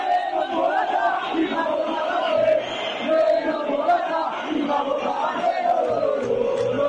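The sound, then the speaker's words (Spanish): Atlético de Madrid supporters chant from the south stand of their stadium: a loud, sustained roar of massed voices shouting together in a rhythmic, rising and falling cry. “lo ha sacado de un vídeo de Twitter que ha colgado un seguidor del Atlético de Madrid, un aficionado del Atlético de Madrid, es en el fondo donde se coloca o donde estaba el frente Atlético y ha sonado así en el estadio.”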